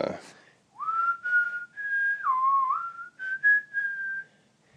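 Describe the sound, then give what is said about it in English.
A man whistling a casual, nonchalant tune of held notes, with a dip to a lower pitch in the middle and a return to higher notes near the end, clear and alone. “This guy walks down the street and he's whistling, and he's whistling.”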